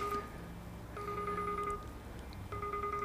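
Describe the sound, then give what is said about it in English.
A mobile phone ringtone chimes in repeating electronic bursts of steady pitched tones, with short pauses between them, fairly quiet over a low background hum. “That's my phone ringing. That's my baby phone.”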